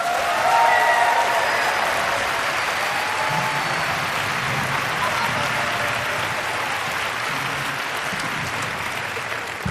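Audience applause, dense, loud crowd clapping that holds steady throughout and fades slightly toward the end.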